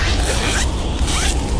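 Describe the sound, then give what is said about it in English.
A zipper is pulled up on a child's new warm winter coat, giving a loud, raspy, continuous zip that fills the short clip with steady scratchy noise. “That's the sound of a child zipping up their new warm winter coat that you donated.”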